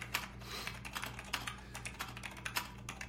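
Typing on a computer keyboard as a statement is taken down during an interrogation: a quiet, quick, irregular patter of many key clicks, heard alone without voices.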